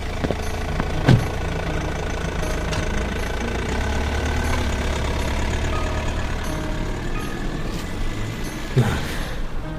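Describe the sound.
A car engine rumbles low and steady as the car drives away, a continuous drone with a few faint clicks and knocks on top.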